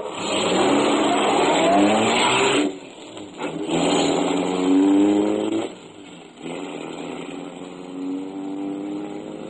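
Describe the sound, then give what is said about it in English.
A car driving out toward a greenhouse, its engine loud and continuous, surging and dipping with two brief drops in the note, and no voices. “Dawson and I drove out to Somerville Avenue.”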